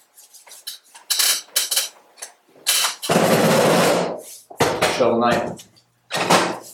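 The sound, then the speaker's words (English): A toy Pokeball dropped like a microphone, making a short run of clattering, knocking impacts with a burst of scraping noise, amid people talking. “That's not a microphone. That's a Pokeball. That was all I could find to drop.”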